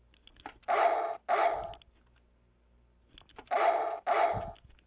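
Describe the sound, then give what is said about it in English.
A dog barks in four loud, sharp bursts, grouped as two close pairs separated by a quiet gap, with no other sound in between. “Let's get your bark. Sending shots of the barks to all my people out there.”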